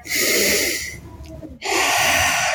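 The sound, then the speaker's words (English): Deep breath taken during a yoga stretch: a long, loud, airy inhale, a brief pause, then a long, breathy exhale. “Let's take one breath here.”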